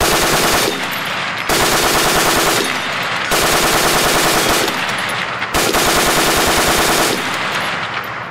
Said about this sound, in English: Of course, this gun just starts to plow into them. The Turk behind the trigger starts bursting off rounds, burst after burst.